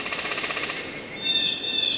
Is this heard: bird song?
yes